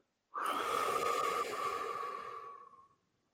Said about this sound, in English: Take a deep breath in and hold. One, two, three, four, now let it out.